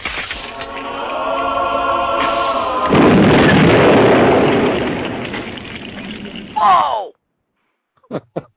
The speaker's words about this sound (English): I thought it was so appropriate for John here from Shock, you know, Holy Hand Grenade.